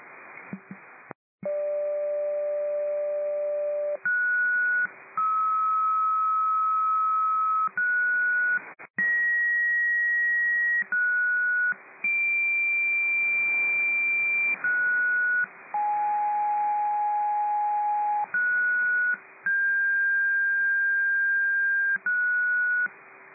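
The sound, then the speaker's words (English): Fire dispatch pager alert test tones: a long run of steady electronic tones at shifting pitches, each held for a second or more with short gaps, sounding alone over a faint hiss. “Glastonbury Dispatch nightly test to all fire personnel”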